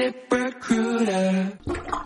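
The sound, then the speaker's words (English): A plunger works a clogged sink drain, with wet squelches and gurgling sucks in quick succession and a drawn-out, honking squelch in the middle. “I've been plunging this sink for an hour. I give up.”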